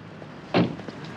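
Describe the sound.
A car's rear door is opened, heard as a single brief, soft clunk and rustle midway through an otherwise quiet, faint background.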